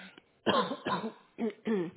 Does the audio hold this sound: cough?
yes

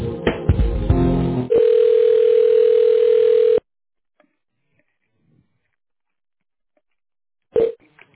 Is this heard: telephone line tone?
yes

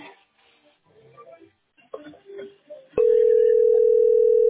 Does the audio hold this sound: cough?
no

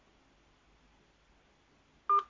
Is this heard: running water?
no

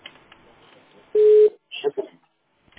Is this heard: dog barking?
no

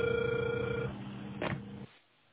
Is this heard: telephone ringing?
yes

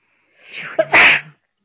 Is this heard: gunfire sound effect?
no

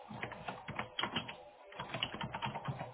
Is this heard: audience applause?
no

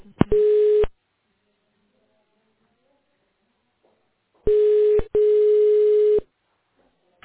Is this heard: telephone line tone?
yes

